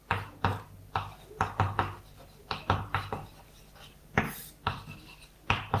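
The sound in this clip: Handwriting as someone writes out a mathematical expression during a lecture: many quick scratchy strokes and light taps in an irregular rhythm, fairly faint, with no talking.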